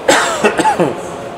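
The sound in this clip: A cough and throat clearing: a few rough, raspy bursts in quick succession, fairly loud, with no speech over them.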